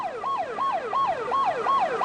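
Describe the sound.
An ambulance siren yelps in fast, regular cycles, its pitch sweeping up and falling back about six times in quick succession, loud and steady with no voices.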